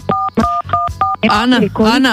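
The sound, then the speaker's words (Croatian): Telephone keypad buttons being pressed produce four dual-tone dialing beeps in a steady, evenly spaced rhythm, each a clear sustained pitched tone, followed by a voice talking. “kako pričate, stišćete botune od telefona pa nam to zvoni.”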